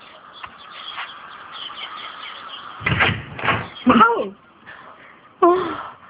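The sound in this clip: A hostel door is opened with a quick clatter of knocks and thuds, and people talk straight after.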